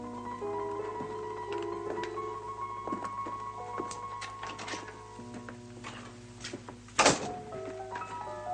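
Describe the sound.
A maid closes a door in an eighteenth-century salon: one soft thud near the end, under quiet orchestral music with faint ticking.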